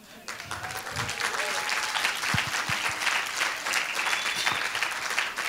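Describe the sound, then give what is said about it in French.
A church audience claps and cheers to greet people, dense, steady applause running the whole way with voices mixed into it. “J'aimerais que vous puissiez faire du bruit et les saluer maintenant.”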